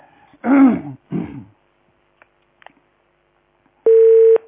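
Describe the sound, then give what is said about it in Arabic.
Telephone dial tone after a cut-off line: a short, steady electronic tone near the end, preceded by a couple of brief vocal sounds and a few faint clicks. “الخط اتقطع، حاولي اتصل بيا”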